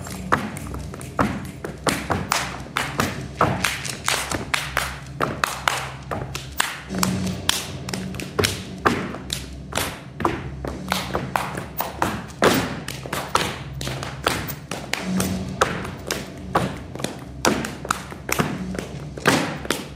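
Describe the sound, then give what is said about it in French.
Dancers stamp their feet and clap their hands in a powerful, masculine stage dance performance with kicks and combat play, producing many sharp thuds and claps in dense, driving rhythmic bursts throughout, with no talking. “Et voilà, on entend battre des pieds, battre des mains.”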